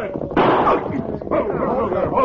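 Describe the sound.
Gunshots ring out in a western shootout: two loud, sharp bursts with a rough, lingering decay, mixed with shouting voices.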